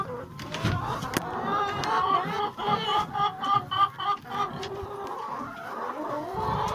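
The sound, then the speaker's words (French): Hens cluck in a henhouse in a run of short, rhythmic calls that swell in the middle and then fade, with a few sharp clicks near the start. “Allez les poupoules. Oh, il y a déjà un œuf.”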